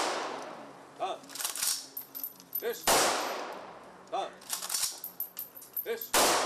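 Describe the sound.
Rifle volleys fired into the air by Israeli soldiers as a salute for a fallen soldier: a few sharp, loud cracks with trailing decays, with voices and smaller clattering sounds between them.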